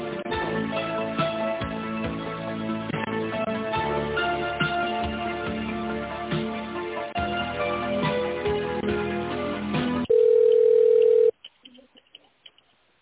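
Telephone hold music plays steadily while a call is transferred to an office, then gives way to a single sustained line tone lasting about a second, followed by a few faint clicks.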